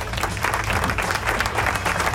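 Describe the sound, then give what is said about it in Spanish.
Applause from many hands, a dense and even patter that keeps a steady, moderate level from start to finish. “¡Aplauso!”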